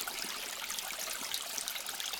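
Water trickles and splashes in a continuous, quiet, bright babble with no voices or other sounds.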